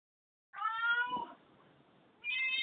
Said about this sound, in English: Sorry about my cat, everybody.